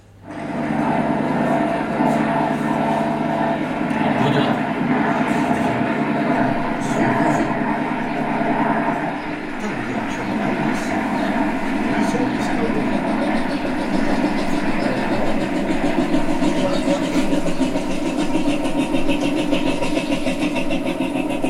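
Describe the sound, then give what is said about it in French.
The Baudouin DK3 diesel engine of a fishing boat, which has few cylinders, runs as a loud, continuous low throb. Its level dips briefly midway and then holds steady to the end. “c'était plutôt le baudouin. C'était un DK3. Alors lui, c'était spécial. Hein. Pop, pop, pop, pop, c'est le nombre. Si vous voulez, quand ça fait ça, c'est qu'il n'y a pas beaucoup de cylindres.”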